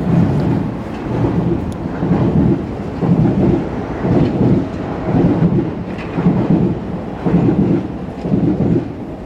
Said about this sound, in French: la ville de Stain et la ville de Pierrefitte sont séparées par les rails avec le train que vous allez entendre maintenant.